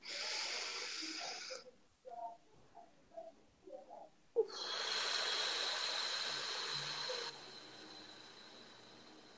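Airy, hissing breath sounds during a guided affirmation exercise, two long sustained stretches of breathing separated by a few short, soft sounds, all at low volume.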